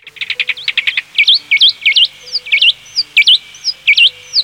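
A Chilean mockingbird sings loudly on its own, opening with a rapid run of short, bright repeated notes and moving into a lively series of varied, upswept whistled phrases.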